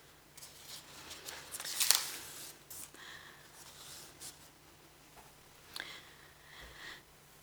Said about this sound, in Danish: nu skal lige bladre om til næste side